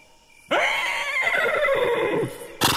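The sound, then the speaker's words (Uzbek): A horse neighs in one long, loud whinny of nearly two seconds, its pitch wavering and stuttering toward the end, followed by a short loud burst. “Qora ot ham osmoni falakka uchib ketibdi.”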